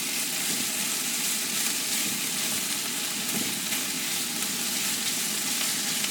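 Steady, loud sizzling of vegetables seasoned with salt and pepper frying in a pan for ratatouille, a dense continuous crackle with no talk over it.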